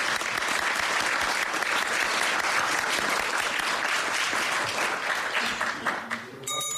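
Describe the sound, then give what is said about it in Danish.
Applause at a municipal council meeting in Billund, Denmark, congratulating a couple on their wedding. Many hands clap in a dense, steady burst that thins out and fades near the end. “Skal vi ikke lige give den hånd?”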